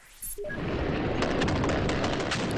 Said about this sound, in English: gunfire. It's a fierce gun battle that broke out in between a team of Taliban fighters who were targeting UN and government buildings and the security forces there.